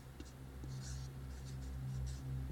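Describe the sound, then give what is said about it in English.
The word fear being written by hand onto something, with soft, brief scratching strokes over a steady low hum. “I'm gonna write fear on this.”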